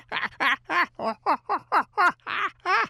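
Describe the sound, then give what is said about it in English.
Human voice imitating a fanatical chimpanzee call: ten quick, loud, hooting whoops with wavering pitch, delivered in a steady rhythm with nothing else over them. “Yeah, they do a better chimpanzee call. They go into a fanatical call. It goes,”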